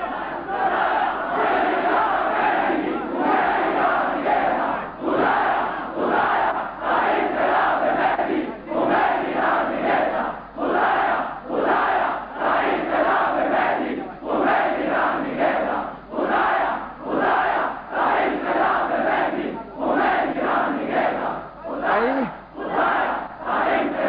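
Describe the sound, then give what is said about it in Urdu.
A large crowd chants a religious slogan in unison, with loud, rhythmic bursts of many voices repeating steadily and short gaps between phrases throughout. “اس کے لیے نعرہ لگائیے.”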